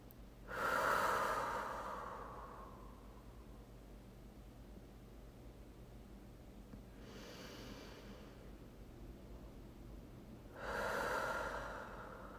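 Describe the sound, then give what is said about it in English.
Deep breaths drawn in through the nose and let out through the mouth in a guided breathing exercise: three slow, airy breath sounds separated by long quiet gaps, with the middle one softer. “take a few deep breaths in through the nose and out through the mouth.”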